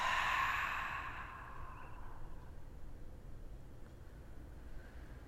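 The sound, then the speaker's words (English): A single deep exhale during a breathing exercise, a loud, breathy release of air at the start that gradually fades into a faint, quiet hiss. “So just inhaling fully, deeply, fill yourself up. And big exhale, let it go.”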